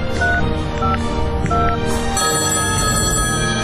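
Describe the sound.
A telephone rings in a few repeated bursts of bright tones over a dense, steady background, with no one speaking.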